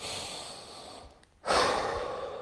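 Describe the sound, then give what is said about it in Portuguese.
Slow, deep breathing: a long airy breath fades out into a short pause, then a second strong breath rushes in loudly and gradually tapers off. “fala em voz alta, respira dez vezes.”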